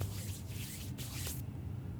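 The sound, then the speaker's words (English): Hands are washed under running water with a steady spray hiss and wet squishing rubs. The sound stops abruptly near the end, leaving only a faint low hum. “You guys hear that? That's me washing my hands.”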